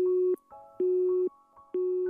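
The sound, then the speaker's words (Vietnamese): Telephone disconnect tone after a call is cut off: three loud, steady mid-pitched beeps, each about half a second long, separated by evenly spaced short gaps. “Điện thoại bị tắt ngay sau đó.”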